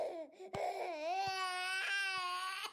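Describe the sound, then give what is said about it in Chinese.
An infant cries in the middle of the night, a high, tonal wail that rises and wavers through several long sobbing cries separated by short catches of breath. “诶，那个小孩又在哭了啦！”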